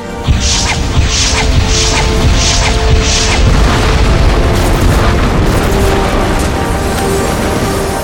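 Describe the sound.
A starship fires missiles at planetary defense batteries: five quick bright launch bursts in a row, over a loud, continuous booming rumble of explosions that fills the whole clip.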